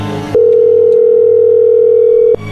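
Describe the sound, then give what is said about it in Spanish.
Telephone dial tone while a call is placed again, one steady, loud mid-pitched tone that holds unbroken for about two seconds, with other sound briefly at its start and end. “A ver, márcale otra vez. déjame hablar con ella.”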